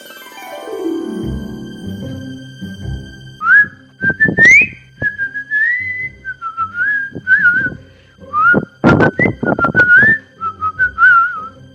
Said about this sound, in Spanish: Cuando tiene hambre la pilaraña, que es un bicho horrible, silba.